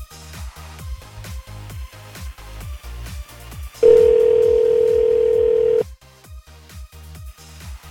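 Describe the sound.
The ringback tone of an outgoing phone call sounds as one loud, steady, two-second tone over a rhythmic background beat that pulses before and after it.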